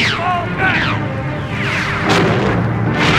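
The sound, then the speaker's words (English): An Imperial laser blast seals a passageway leading to transports during an attack on a base. Several sharp zapping shots with falling-pitch sweeps ring out over a loud, continuous rumbling din of crashes and explosions. “An Imperial laser blast seals the passageway leading to the transports in safety.”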